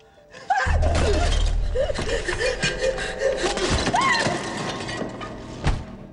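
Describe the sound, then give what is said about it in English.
A car window smashed with a baseball bat: a loud, sudden shattering crash, then crunching glass and another sharp impact near the end, with gasping voices throughout. “Danny batters in Carla's car window with a baseball bat, then smashes her with it.”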